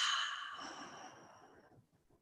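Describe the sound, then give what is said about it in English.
A deep breath out through the mouth during a guided meditation, a soft, airy rush that starts strongest and gradually fades over about two seconds, alone and quiet. “take a really big inhale through the nose. Fill up the whole body with breath. And then exhale out the mouth.”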